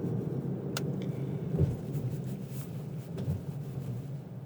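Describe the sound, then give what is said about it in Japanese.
Car interior while driving: a quiet, steady low rumble of engine and road, with a few faint knocks and no talk. “これは、車を運転しながらマイクを回してるからなんですね。”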